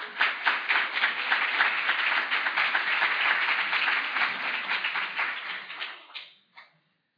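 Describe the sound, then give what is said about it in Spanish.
Audience applause welcomes a speaker at a conference on anxiety and depression. Dense, steady clapping holds loud for several seconds, then thins and fades out at the end. “Lo recibimos con un fuerte aplauso.”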